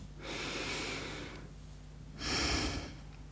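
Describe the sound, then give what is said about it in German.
A deep breath: two breathy rushes of air, the second shorter and louder than the first, with no talk over them. “schließ doch einmal kurz die Augen und atme tief durch.”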